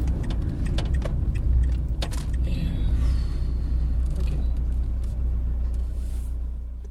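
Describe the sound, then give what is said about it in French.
Steady low engine rumble of a car as it pulls in to park, a dense, even drone filling the whole stretch with a faint higher rattle above it. “Attends, je vais me garer là.”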